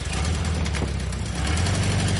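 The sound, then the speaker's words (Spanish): An old, small half-egg-shaped car's engine runs steadily with a low, rough rumble and broad hiss, loud and continuous throughout with no voices. “Limpia el parabrisas de su antiguo coche medio huevo. Entra en el vehículo y cierra la puerta que lleva incorporado el volante.”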